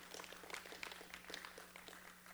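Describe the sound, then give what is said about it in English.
Faint, polite clapping from a church audience during a Sunday service: a thin scattering of light hand claps with no cheering, held at a low, steady level over a faint hum. “Oh, y'all, please don't give me that golf tournament clap.”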